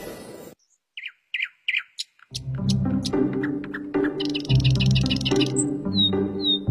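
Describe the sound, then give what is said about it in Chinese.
Magpie calls ring out as a few sharp, isolated chirps, then give way to a busier, layered stretch of bright calls over a steadier lower tone. “我叫喜鹊，自古以来深受人们喜爱的鸟类”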